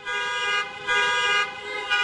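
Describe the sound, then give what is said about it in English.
Car horns honk continuously as taxi drivers block traffic in a Boston protest. Several overlapping horn blasts sustain one loud, steady, brassy chord, with brief dips between them. “In Boston, drivers blocked traffic for an hour-long honking protest in late May.”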